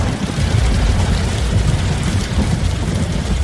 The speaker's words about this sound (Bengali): আর বজ্র বিদ্যুৎ সহ মুষলধারে বৃষ্টি নামল।